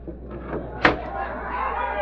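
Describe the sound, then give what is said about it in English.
A window is opened with a single sharp thump or bang, which stands out briefly amid a low hum and people talking. “Wait till I open the window.”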